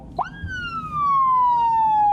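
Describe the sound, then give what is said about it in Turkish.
A police car siren in Düzce, Turkey, gives a brief blip, then swells into one loud, steady wail that slowly slides down in pitch and holds alone to the end. “Elinde siren kumandası vardı.”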